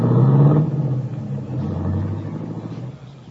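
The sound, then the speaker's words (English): A limousine engine rumbles as the car drives off toward the highway: a loud, deep motor rumble at the start that settles into a steady lower drone and fades slightly at the end. “then wait as the big guy gets into the limousine and is driven off toward the highway”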